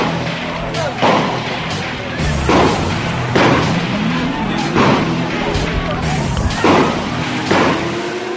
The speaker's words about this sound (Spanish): Siguen cayendo piedras, escuchen los disparos.